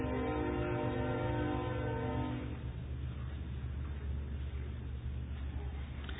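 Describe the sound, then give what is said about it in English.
A train passes, its loud horn sounding a steady multi-tone chord for about two and a half seconds before giving way to a continuous low rumble of rolling wheels and cars. “Until now, I think I'll wait till the train goes past.”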